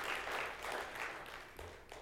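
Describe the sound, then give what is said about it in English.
A church audience claps together during a service, a faint, steady patter of many hands. The clapping rises and dips gently in loudness and continues to the end. “Let's clap. There we are.”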